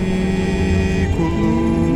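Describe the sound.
A vehicle vibrates as it moves, giving a steady droning hum layered with tonal rumbles that shift partway through, with no pause in the loud vibration.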